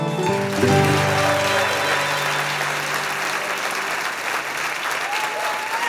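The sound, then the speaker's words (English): Audience applause and cheering welcoming the host of eTown, just after an all-acoustic opening theme. The clapping is full and sustained throughout, with tonal sound trailing away in the first couple of seconds. “Right now, join me in welcoming our host, Nick Forster.”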